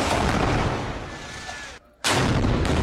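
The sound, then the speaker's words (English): An Israeli tank fires at buildings in Gaza neighborhoods, sounding as a loud, sustained roar of heavy blasts and rumble that drops away briefly before surging back in full force. “An Israel Defense Forces tank and its soldiers fired at buildings in two Gaza neighborhoods today.”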